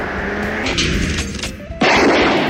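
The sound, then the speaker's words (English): A loud gunshot at a gun range in a comedy sketch: a single sudden blast that bursts in late and stays harsh and noisy to the end, after a quieter stretch of background sound. “At Bo Bob's Gun Range, when you hit three bullseyes in a row, why, you will get to take a very special shot at a dissenting liberal Democrat.”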